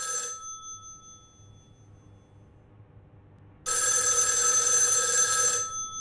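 A telephone rings in a newspaper editorial office. It begins with the shrill tail end of one ring, then a quiet pause, then a second loud, bright ring of about two seconds that stops abruptly.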